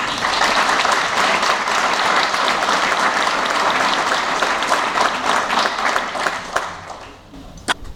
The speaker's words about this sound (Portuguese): eu pedi então uma salva de palmas para o Pedro